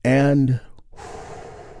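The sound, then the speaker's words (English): A big, deep breath taken together during a guided relaxation: a deep, voiced, sigh-like breath, then a softer, steady airy rush of breath. “a big, deep healing breath that we do all together”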